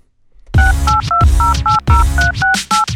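Telephone number being dialed with touch-tone keys: a rapid series of sharp dual-tone beeps, loud and evenly spaced, each a short steady chirp, with no talking.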